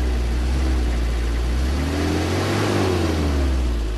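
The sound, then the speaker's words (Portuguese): A column of twenty Africa-specific Nissan pickup trucks drives in convoy on the Raid TT Kwanza Sul rally in Angola, a constant mid-pitched engine roar whose pitch rises and then falls as one vehicle passes midway. “Estava em marcha uma coluna de 20 pickups de modelo especificamente africano que o importador Nissan, em Angola, tem conseguido promover patrocinando o raid TT Quanza Sul.”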